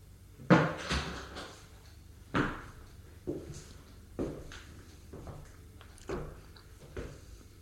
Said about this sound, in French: La porte s'est ouverte.